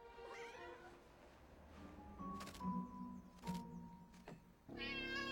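Cat meowing, a few faint, drawn-out, tonal meows with wavering pitch, one near the start and one at the end, over a quiet background with soft rustling.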